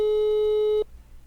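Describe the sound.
Telephone busy signal on an unanswered call: one steady, clear tone holds for under a second and then cuts off abruptly, with no talk.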